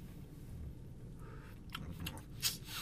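Chewing on a bite of tapas: soft, moist crunching and mouth sounds at low level, with a slightly louder bite near the end.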